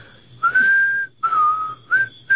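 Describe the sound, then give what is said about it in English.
A person whistles three clear, sustained notes, the first rising slightly and the second holding level, each separated by a short breath gap. “What, whistle? Yeah. Easiest thing in the world. Just watch me. I'll show you how.”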